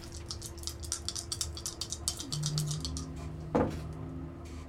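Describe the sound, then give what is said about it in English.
A coffee maker brewing gives off faint, irregular pattering clicks and drips, with a low steady hum underneath and one brief louder gurgling spurt near the end. “I don't know what that was. It sounded like coffee. It sounded like a coffee maker.”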